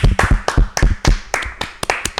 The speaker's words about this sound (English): I'm gonna give you another hand clap,